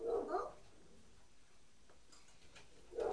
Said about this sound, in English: it barks. That's the dog.